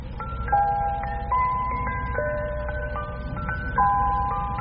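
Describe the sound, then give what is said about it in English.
A music box plays its tune: a tinkling melody of bright, high plucked notes in a steady, even rhythm, with sustained overlapping tones and no talk. “You see this music box, Pitt? Music box, is it? Would you like it to hear its tune?”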